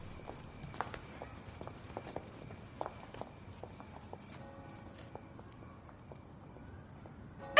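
Footsteps of two women walking away sound as many quiet, irregular steps, some sharper clicks standing out against a faint background, with no talking.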